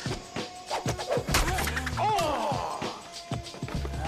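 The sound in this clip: A vinyl record being thrown away, heard as a few hard thuds and clattering crashes of varying loudness, with voices talking briefly between the impacts.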